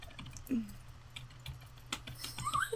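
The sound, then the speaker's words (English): Faint computer keyboard typing from a gamer during a timed match, a few sparse, sharp keystroke clicks scattered across a low background hum. “Oh no, I typed a V.”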